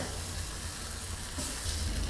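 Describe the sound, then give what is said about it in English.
Noodles simmering in liquid in a pan over medium heat, giving a steady, even sizzle and bubbling hiss that runs unbroken throughout. “And I'm going to turn the heat down to about medium right now, because I want the noodles to simmer in this liquid a little bit and soften up just a teeny bit more without boiling the liquid away completely.”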